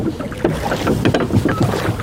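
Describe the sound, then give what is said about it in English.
Oars dip and pull as a boat is rowed on the river in Durham. Irregular splashes and water churning come with steady wind noise, and no one speaks. “Tom Harwood, always keen to put your oar in, and there you are, rowing away on the river.”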